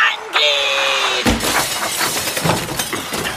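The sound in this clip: A window's glass shatters in a sudden loud crash, followed by a spray of crackling, tinkling fragments that keep rattling for a few seconds.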